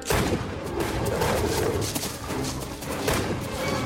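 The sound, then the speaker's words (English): Pistol fire during a chase through trees, heard as repeated sharp cracks within a dense, rumbling wash of continuous noise. “As the wolfman gives chase, the colonel fires his pistol.”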